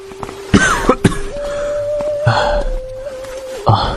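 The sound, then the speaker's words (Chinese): A coughing fit muffled behind a sleeve: a few sharp, spaced-out coughs over a steady sustained tone in the background. “梅长苏就用衣袖掩口咳得弓下了身子”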